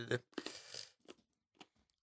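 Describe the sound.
A Pez candy wrapper is ripped open in one short crinkly tear, followed by a few faint scattered crackles. The sound is quiet overall, and a brief voice comes in at the start.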